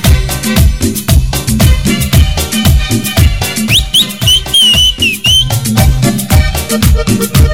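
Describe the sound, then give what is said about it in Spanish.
Whistling over a loud dance track with a steady, driving beat; in the middle the high whistled notes slide up and hold before dropping away, while the music carries on without any voices. “La gente que sabe silbar.”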